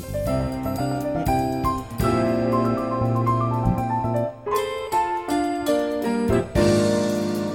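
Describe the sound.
Film score cue from a 1991 movie, written in an adult contemporary jazz style, with rich sustained chords and bright tinkling accents. It flows continuously at a fairly loud level, with a short dip in the middle before the texture thickens again.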